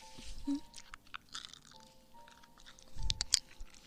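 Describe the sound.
Soft, sour gummy candy is chewed quietly with faint, moist, squishy bites and mouth sounds in an uneven rhythm. A slightly louder burst of chewing comes near the end, with no talk over it.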